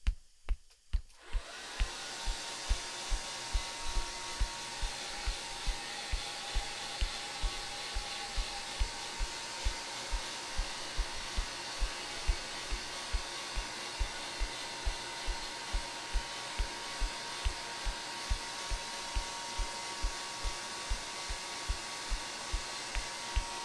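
A hair dryer blows hair dry: it starts abruptly, then gives a loud, steady rushing whoosh for a long stretch, with a faint, regular low pulsing running underneath throughout.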